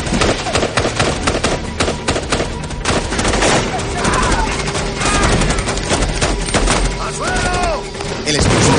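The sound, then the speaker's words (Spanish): Sustained gunfire from advancing rebels in a 2003 war action film, a loud, dense stream of rapid overlapping shots and automatic bursts that keeps up without a pause. “Mientras, los rebeldes avanzan hacia ellos y no paran de disparar matando a algunos.”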